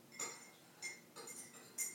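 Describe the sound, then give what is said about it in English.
A metal spoon clinks against a mug while stirring honey into it, a few light, bright taps spaced unevenly and heard alone. “stirring that up, putting the spoon in the sink”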